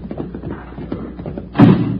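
A door opens with a single heavy thump near the end, preceded by low muffled knocking and shuffling sounds.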